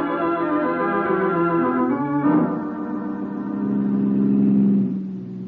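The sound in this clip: A car engine drones steadily as the car is driven and pulls up at a gate. Its humming tone shifts abruptly partway through, then swells again before easing off.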